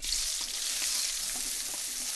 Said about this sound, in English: Then the flavorings are stir-fried. And then you must cook this onion, ginger, and the lemongrass.